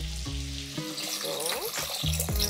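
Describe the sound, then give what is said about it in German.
Broth pours into a pot over capers, olives and chili for a one-pot pasta, giving a continuous splashing, hissing stream of liquid. “Ich habe jetzt hier noch ein paar Kapern, ein paar Oliven und ich mache auch noch ein bisschen Chili mit rein. Da kommt jetzt einfach nur Brühe drauf.”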